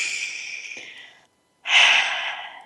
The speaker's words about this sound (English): One more breath together.